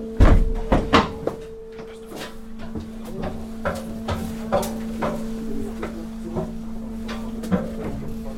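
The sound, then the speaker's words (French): Doors and hatches being shut on a lifeboat give many sharp thunks and clanks at irregular intervals, the first ones loudest, over a steady low mechanical hum. “Je vais tout fermer ici, parce que ça va faire du bruit.”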